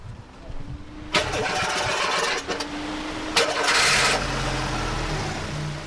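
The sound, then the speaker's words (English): A homemade car built from scrap metal in Uganda starts up: a couple of rough cranking bursts with a faint whine, then the engine catches and settles into a low, steady idle rumble. “That's the sound of Uganda One, as its number plate clearly indicates.”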